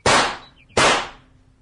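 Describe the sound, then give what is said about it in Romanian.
Two loud gunshots from a rifle fired at a pair of stray cows on a pasture. Each is a sharp crack with a long, fading tail, the second coming under a second after the first. “Atunci, trage.”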